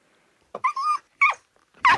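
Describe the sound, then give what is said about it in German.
A dog growls and barks in three short, separate bursts with silence between them. The first is a drawn-out growling whine, followed by two sharper, louder barks. “Hund. Das war ein Hund.”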